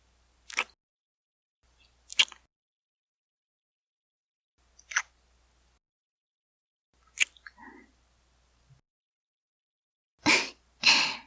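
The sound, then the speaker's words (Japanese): Soft ASMR ear kisses behind the ear: several short, wet lip smacks and clicks spaced by quiet gaps, ending with two fuller, longer kissing bursts. “うん、耳キス、気に入ってくれてたもんね。だから、少しだけずらして、耳の裏側なんて、どうかな。”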